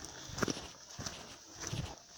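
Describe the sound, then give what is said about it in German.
Footsteps of a person walking through a quiet forest: a few soft, faint crunching steps at a slow, even pace over a low, hushed background. “Jetzt geht es durch einen schönen Wald. Absolute Stille, nur meine Schritte.”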